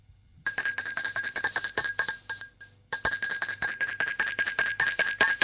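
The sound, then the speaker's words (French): Doorbell at a factory office on a Saturday evening: a bright, metallic electric bell rattles in a rapid continuous burst of about two and a half seconds, stops briefly, then rings again just as insistently. “L'on a sonné. Il sort de son bureau pour aller ouvrir.”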